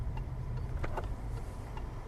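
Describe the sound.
A car drives through a village past a large church, a fairly quiet, steady low rumble of engine and road noise broken by a few faint ticks.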